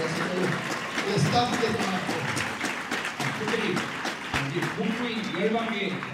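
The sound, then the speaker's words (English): Audience clapping at a church conference, given to those who served at the event, runs as a continuous patter beneath voices that keep talking over it. “Especially, you know, let's clap for those who have served for this conference.”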